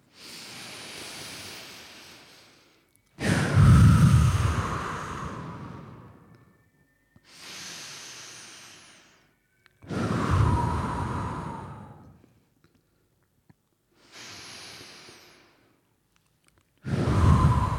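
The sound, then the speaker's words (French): Deep breaths taken together by a group, slow rushing cycles of air with longer, louder swells between quieter ones and short pauses, with no talk. “Allez, on fait trois respirations. Trois respirations.”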